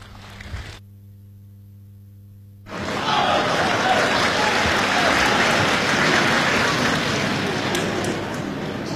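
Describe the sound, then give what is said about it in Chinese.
Applause from a live audience at a crosstalk comedy show, breaking in abruptly after a few seconds of near silence with faint hum, then continuing as steady, full clapping to the end. “谢谢现场所有热情的观众，谢谢您这么稀稀拉拉的掌声”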